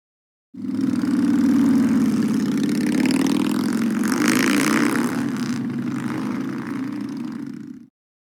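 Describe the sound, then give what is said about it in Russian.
A motorcycle engine runs steadily for about seven seconds as a loud, low droning hum whose pitch wavers only slightly. It cuts in and stops abruptly with no voices. “У меня есть мотоцикл.”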